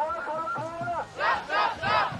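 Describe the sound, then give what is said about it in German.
Protest crowd on a march toward Lützerath chanting slogans: a single voice speaks, then three loud, rhythmic shouted bursts from many voices follow in even succession. “Die Sprechchöre können sie alle auswendig.”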